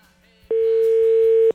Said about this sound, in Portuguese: Deixa eu tentar ligar pra esse cara, vai.